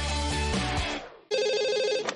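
A telephone rings with a warbling electronic trill that starts abruptly and holds steady for about a second. It follows a fading tonal sound, and no one speaks.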